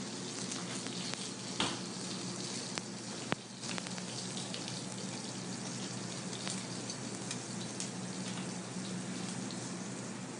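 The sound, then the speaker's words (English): Blanched, seasoned potatoes searing flat on a plancha: a faint, continuous sizzle with a few sharp pops and crackles scattered through it. “these are the potatoes we blanched off, and I'm going to get them nice and seasoned, lay them out in the plancha flat, let them get a nice cooked sear, crispy sear on one side, and then flip them over and let them finish off.”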